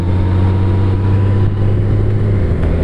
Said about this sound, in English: OK, I've just pulled away in the Gold Wing under a lot of pressure because the coach made me go first.